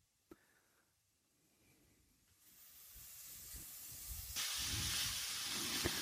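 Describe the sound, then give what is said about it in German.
Onions sizzle as they fry in a pan with mushrooms. A faint hiss builds gradually, then jumps to a louder, steady sizzle near the end, with one small click near the start. “Aber die Pilze sollten schon erstmal ein bisschen gebraten werden. So, als nächstes dann die Zwiebeln.”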